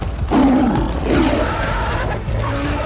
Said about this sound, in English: With a roar, he dashed toward Bear.